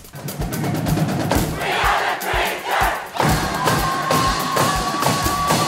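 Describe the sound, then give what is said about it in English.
Traverse City West student fans cheer at the 2022 Battle of the Fans high school competition, a loud, massed crowd roar with rhythmic pulsing chants that dips briefly, then surges back at full volume. “That was the Traverse City West Bleacher Creatures, and that is your 2022 Battle of the Fans champion.”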